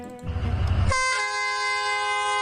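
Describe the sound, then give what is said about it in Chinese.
A train whistle sounds as a vintage metre-gauge tourist train with yellow wooden carriages pulls out of a station in southern Yunnan. A low rumbling of the train comes first, then a loud, steady, high whistle holds to the end. “随着汽笛声响，复古的黄色木质车厢满载游客缓缓驶出站台”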